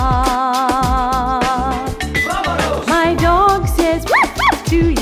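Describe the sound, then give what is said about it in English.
Dog barks and howls in a birthday song: short yipping barks among busy music, then two rising, wavering howls near the end, loud and up front in the mix. “My dog says, awoo!”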